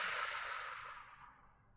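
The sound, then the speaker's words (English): A deep breath exhaled during a guided relaxation exercise: a soft, airy hiss that gradually fades away over under two seconds, with no talking over it. “And we'll do that again, inhaling fully and deeply. Exhale, let it go.”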